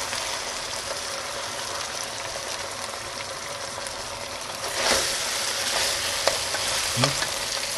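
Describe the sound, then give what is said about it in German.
A lamb roast sears in a pot and is turned repeatedly so every side browns, giving a steady, hissing sizzle with a few soft clunks of the meat being moved. “den Braten immer wieder mal rumdrehen in dem Topf. Dass er von allen Seiten auch Farbe kriegt.”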